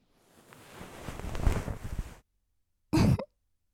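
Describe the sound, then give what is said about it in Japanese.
Soft fluffy rustling of a bonten ear pick brushing inside the ear, swelling gradually for about two seconds before stopping, then one short, louder brushing burst after a brief silence. “それじゃあこっちにも梵天入れるわね。くすぐったいと思うけど、我慢して動かないこと。”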